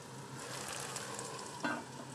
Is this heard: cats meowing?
no